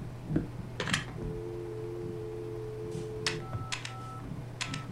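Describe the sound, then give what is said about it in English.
Touch-tone keypad dialing on an old 1980s motel telephone handset: a few clicky button presses and two steady electronic tones, quiet and alone. “Dial 99 star for messages.”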